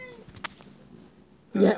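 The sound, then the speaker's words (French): A kitten lets out one short, fairly loud meow at the very end, following a quiet stretch with only faint scattered sounds. “ah, mais voilà, vous avez un chaton. Oui, je suis désolée, elle est cinéphile.”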